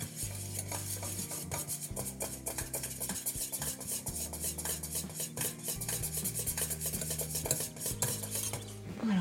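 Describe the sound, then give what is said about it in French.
A whisk beats and stirs melting caramel in a pan over fairly low heat, making fast, continuous metallic scraping and clinking strokes with no talk. “Et au fur et à mesure, en fouettant, en chauffant, ça va faire fondre ce caramel au bout du fouet.”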